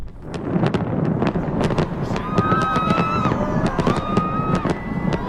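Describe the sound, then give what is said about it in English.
New Year fireworks at a huge celebration in Dubai: many sharp bangs and pops burst in quick, irregular succession over a constant crowd roar, with a few sustained whistling tones in the second half. “This is the sound of the biggest New Year fireworks celebration in the Middle East.”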